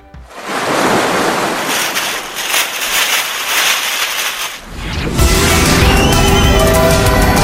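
Virtual beach ambience with waves: loud, rushing surf swells and ebbs, then shifts partway through into a denser, steadier wash with faint high tones above it, with no talk.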